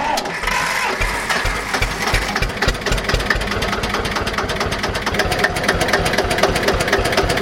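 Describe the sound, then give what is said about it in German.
Steady chugging of a 1951 Deutz 15 hp single-cylinder air-cooled tractor engine running on its own, a loud, even, rapid pulsing beat that holds a constant pace throughout with no voices. “Dieser Einzylinder luftgekühlt, ja, der läuft tuckert schön vor sich hin, würde ich sagen.”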